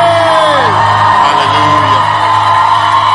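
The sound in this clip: A church audience cheers and whoops loudly to welcome a bishop to the pulpit. The roar of raised voices is dense and unbroken, with shouts gliding in pitch.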